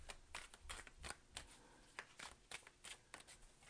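A Radiant Wise Spirit tarot deck is shuffled, giving a rapid run of many soft, papery snaps and riffles of cards. The sound is faint but steady and has no talk over it.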